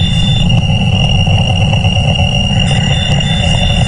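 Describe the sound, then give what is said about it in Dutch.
An irritating signal sound effect: a steady, piercing high-pitched whine sits over a loud, rough rumbling noise, continuing unbroken for about four seconds with no talk. “als jij dat irritante gepiep dat de Wow Signal heet hoort tijdens onze radioshow, dan moet je Muse in de app sturen. Voor alle duidelijkheid, je gaat dat heel snel herkennen. Want het klinkt dus zo.”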